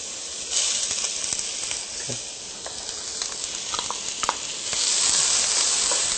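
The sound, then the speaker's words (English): Onions sizzle in a heated cooking pan, a continuous hiss dotted with small pops and crackles that grows louder toward the end. “We'll take our onions. Oh, yes. You hear that sound? We know something is cooking now, for sure, huh?”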